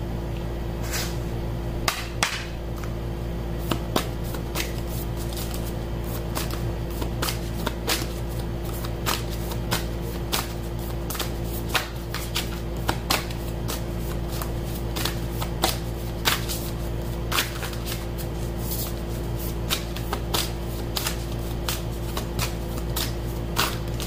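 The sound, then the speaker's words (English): Oracle cards, an Isis deck, are shuffled by hand: many crisp, quick clicks and snaps go on for the whole stretch over a steady low hum, with no talk. “I want to take an oracle card, an Isis oracle card.”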